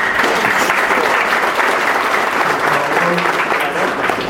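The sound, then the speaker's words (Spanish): Audience applause in a hall at a community hearing, right after a speaker finishes: a dense, steady patter of many hands clapping that stays loud and even from start to end. “Ruego a la estimada concurrencia mantener el orden en la sala y no se puede aplaudir a cada uno de los oradores.”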